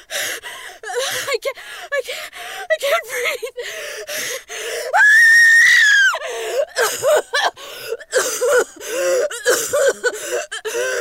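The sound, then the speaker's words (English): A woman gasps and wheezes as she struggles to breathe. Ragged, rapid breaths are broken by a sustained, strained high-pitched wheeze in the middle, then more uneven gasps. “What's wrong with her? Why can't she breathe?”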